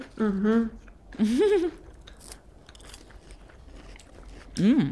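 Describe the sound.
Crisp crunching and biting into a biscuit wafer bar like a Kinder Bueno, with a few crackly bites and chewing between and under people talking.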